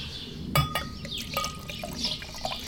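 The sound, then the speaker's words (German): Liquid pours from a bottle into a glass, a 10% alcohol drink, with a couple of brief knocks near the start and then a steady, soft splashing trickle. “Ich schenke mal ein bisschen einen, einen schönen Schluck ein.”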